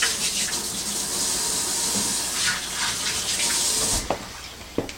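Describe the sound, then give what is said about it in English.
Running water from a tap as hands are washed in a kitchen between handling seasonings, a steady rushing hiss for about four seconds that then stops, followed by a couple of sharp clicks. “I'm going to wash my hands here.”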